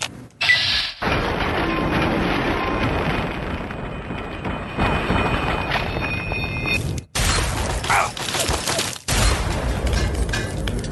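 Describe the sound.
Automated turrets firing in a video game, a sustained harsh rattle of shots mixed with crashing impacts, broken by two short gaps.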